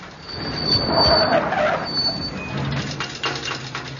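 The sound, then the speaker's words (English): An old van's engine with a failing big end bearing gives a steady mechanical roar with thin whining tones, and a regular knocking grows clearer in the second half. “Oh, Lord. Sounds like the big end's gone.”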